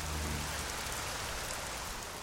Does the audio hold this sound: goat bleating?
no